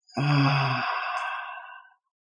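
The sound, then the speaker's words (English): A deep breath blown out during a guided movement exercise, heard alone as one long sigh. It is voiced at the start, then thins into airy breath and fades out over about two seconds. “take a deep breath in and blow it out.”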